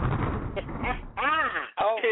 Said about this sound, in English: Explosion.